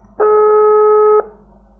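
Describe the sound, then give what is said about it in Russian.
A single steady electronic phone tone as a call is placed, loud and unbroken for about one second, standing alone with no voices. “Сейчас, момент, я ему звоню.”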